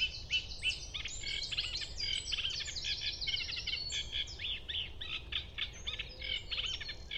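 A bird sings at dawn, just before sunrise, in a varied, rapidly modulated run of high, bright phrases and trills that goes on without a break. The song is fairly faint over a soft, low background hum.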